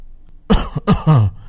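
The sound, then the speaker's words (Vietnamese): Dry coughing and throat clearing in a few short, loud, harsh bursts, each separated by brief silence, with nothing else heard around them. “Thánh nhân Bạch Tự Hành ho khan hai tiếng rồi nói”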